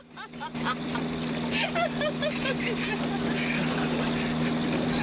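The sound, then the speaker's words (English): A getaway car's engine roars as it speeds off after a bank robbery. The engine noise swells quickly at the start and then holds as a loud, steady drone. “A truck swerves out of their way as they speed off.”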